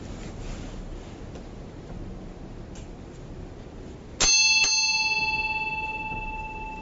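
A bell is struck after a few seconds of faint hiss, with a quick second strike just after, then one bright ringing tone that slowly fades away.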